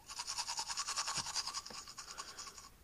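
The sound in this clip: Teeth being brushed with a toothbrush: rapid, rhythmic scrubbing strokes, many quick back-and-forth bursts in a steady bristly pattern. Fairly faint and heard alone.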